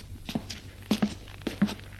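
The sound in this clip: A father walks slowly, his footsteps faint and uneven, several soft steps falling in loose pairs before he stops to sit down.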